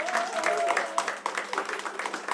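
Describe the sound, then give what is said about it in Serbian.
Audience applause at a live tavern-style music evening as the band members are introduced: a dense, continuous wash of many clapping hands, with a voice briefly heard over it early on. “Saran, jedan veliki aplauz, molim vas.”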